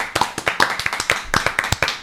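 Audience applause in a studio: crisp, individual hand claps in an uneven, fairly quick patter, each clap distinct rather than blending into a roar.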